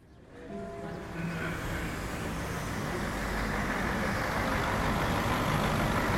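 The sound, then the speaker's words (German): A long-distance coach bus rolls into its bay, giving a broad, steady rumble of engine and road noise. The rumble swells within the first second, then holds and grows slightly louder to the end. “Ein Fernbus rollt in die Haltebox.”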